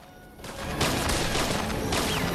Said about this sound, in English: Danny and his crew trade shots with Sinclair and his two remaining guards.